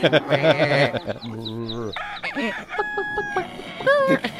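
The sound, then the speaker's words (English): Overlapping farm animal calls, bleating and crowing fowl, layered one after another in an action film scene set in a foreign country; a loud, continuous run of varied calls with no pause between them. “what are they going to do to really hit home that we're in a weird foreign country? How about constant farm animal noises?”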